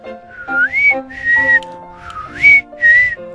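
A person whistling a short, clear tune alone, in four brisk phrases with gliding, rising notes, loud and bright.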